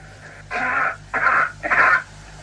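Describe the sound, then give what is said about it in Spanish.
A simulated cough, recreated to sound as it would under Martian atmospheric conditions. Three muffled, breathy bursts follow in quick succession over a steady low hum, with no talk. “La tos o si se produjera en Marte en las mismas condiciones. That's coughing on Mars.”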